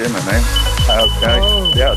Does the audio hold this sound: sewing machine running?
no